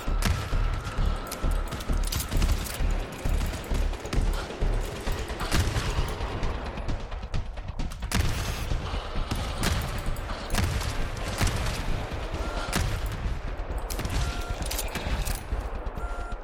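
Automated turret gunfire in the co-op shooter GTFO, a relentless stream of rapid, loud shots layered into continuous bursts with heavy low booms, pounding without pause throughout.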